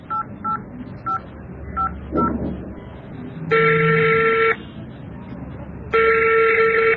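Five short, evenly pitched keypad tones sound as a telephone number is dialed, followed by two long, steady ringing tones on the line.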